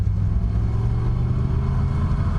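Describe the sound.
Car engine rumbling steadily as the vehicle drives on again after an electrical fault, probably a loose wire; a loud, even low drone throughout.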